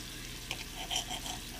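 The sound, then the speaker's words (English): Kitchen cooking while chicken and shrimp are being made: a steady, watery hiss carries on throughout, with a few light clicks and clinks scattered across it. “Y'all probably like, what are you cooking? I am cooking, y'all.”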